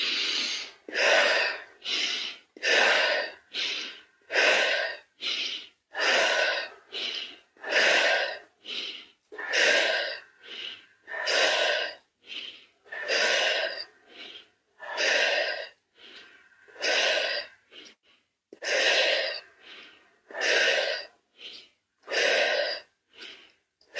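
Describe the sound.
Deep, rhythmic turtle breathing, with many strong breaths following one another at a steady, even pace. Each breath is a loud, airy rush, heard alone with no talking.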